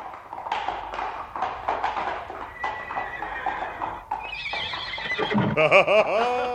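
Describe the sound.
A horse gives a loud, wavering whinny near the end. Before it come several seconds of rhythmic clip-clop hoofbeats from a ride.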